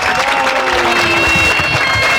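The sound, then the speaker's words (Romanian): Stadium crowd at a football match applauding a player being substituted off, loud and dense crowd noise with steady clapping that holds a constant level for just over two seconds. “Aplauze pentru Petrișor Petrescu!”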